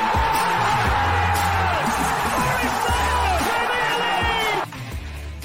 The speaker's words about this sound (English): And the City ground goes ballistic!